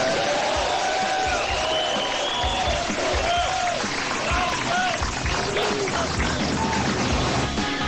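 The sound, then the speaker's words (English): A crowd gives a sustained ovation after golfer Phil Mickelson is introduced: dense, steady applause throughout with scattered whoops and cheers rising above the clapping. “I was scrolling through Twitter. I found it, and I thought it was a pretty good ovation.”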